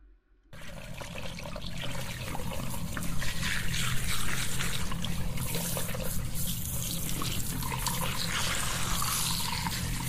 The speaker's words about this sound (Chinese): 好了，现在我们来冲头发了啊，来冲水